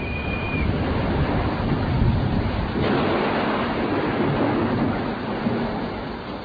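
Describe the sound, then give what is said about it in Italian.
Heavy rain beating on open umbrellas, raincoats and jackets across a crowd of protesters in the street: a dense, continuous hiss and patter that stays steady and fairly loud throughout, with no clear voices. “La pioggia inizia a battere fitta su mille ombrelli aperti, sugli impermeabili, sui giubbotti.”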